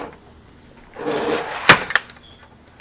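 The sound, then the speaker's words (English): A screen is opened all the way. A soft rushing slide builds, then ends in a sharp clack followed by a smaller knock, with a faint high whine trailing after. “Why you open that thing all the way up?”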